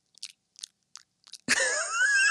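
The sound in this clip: Chewing and biting sounds overdubbed onto a video: four short, crisp crunches with silence between them, then a sudden loud, continuous rasping crunch that fills the rest.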